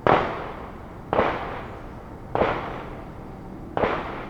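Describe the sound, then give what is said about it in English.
Four gunshots from a nearby shooting range, each a sharp, loud crack followed by a lingering decay, spaced fairly evenly a little over a second apart with no voices. “So we're in Marietta Terrace, so we're literally like another fence line apart from us in the shooting range right now”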